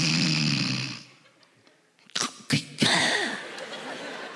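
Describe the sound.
A man imitates his father's snoring during a comedy routine, giving three rough, loud snorting bursts in quick succession after a quieter stretch.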